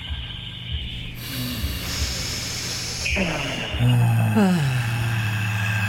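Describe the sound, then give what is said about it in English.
A deep breath drawn in through the nose, then a big exhale. A hissing, breathy inhale builds into a louder, longer outbreath that ends in a low voiced sigh. “So 3, 2, 1, in through the nose, all the way in. Big exhale.”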